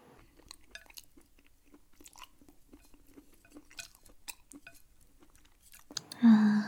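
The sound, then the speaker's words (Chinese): Chewing of grilled barbecue meat: many faint, soft crunching and smacking sounds in an irregular rhythm, ending with a sudden louder burst. “吃得好舒服。老公，这家烤肉就是很好吃吧？”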